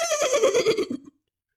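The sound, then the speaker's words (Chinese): A horse's whinny outside a government office: a single quavering, high-pitched neigh lasting about a second, loud and wavering, which cuts off abruptly into silence. “可突然就听到府衙之外人喊马嘶”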